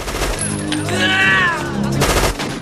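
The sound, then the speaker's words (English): Dense gunfire as a man fires a round of shots from two guns at once, a loud, continuous burst of overlapping reports that runs the whole clip with no clear gaps. “Alex breaks cover and points both his guns directly at the two men, firing a round of shots.”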